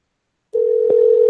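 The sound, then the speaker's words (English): A steady, single-pitched telephone tone sounds while a call is placed to an unmarked number. It begins abruptly after a silent opening and holds level and fairly loud to the end, with one faint click partway through. “So let's call another number. The next number on the list, an unmarked number.”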